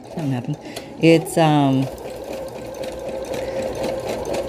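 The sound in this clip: A sewing machine stitches through thick, soft fabric with a fast, steady mechanical whirring that runs on evenly, with brief speech over it near the start.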